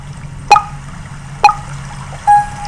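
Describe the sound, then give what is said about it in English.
Water sample played back on a small audio device: bright plinking drops, two sharp ones spaced about a second apart, then a third with a longer ringing tone, over a low steady hum. “And if I press right arrow, comes the next sample music, which is actually water.”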